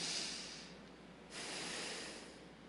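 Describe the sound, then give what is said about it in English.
A group of people draw a giant deep breath together during a reading of Gospel parables. It is a soft, airy rush of breath, faint and without words, with two breathy swells separated by a brief lull. “we as a collective group take a giant breath.”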